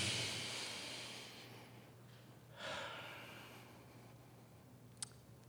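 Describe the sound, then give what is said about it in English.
A group of people taking a deep breath together at a community gathering: a soft, broad hiss of collective breathing, then a second gentle swell of air, faint and without talking. “All right, everybody, let's take a deep breath together one more time, as we did before.”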